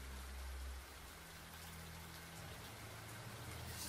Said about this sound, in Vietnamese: Giờ học buổi chiều, cơn mưa vẫn chưa ngớt, bầu trời tối sầm lại, sấm chớp vẫn liên tục.